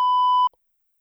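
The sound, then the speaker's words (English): A phone call goes to voicemail with a single steady, mid-high electronic beep. It holds for about half a second, then cuts off into silence. “When you call Drew, it goes straight to voicemail”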